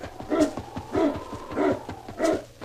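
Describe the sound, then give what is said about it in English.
Barking from a sled dog team: four evenly spaced bursts of sharp barks, each loud and brief, with short pauses between them. “Say, that's a dog team.”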